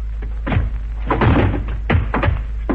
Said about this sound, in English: Hit him. Hit him again, harder.